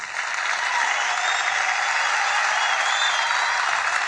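Steady applause from the Malucos do Riso audience: dense, continuous clapping that stays at an even, loud level throughout without a break.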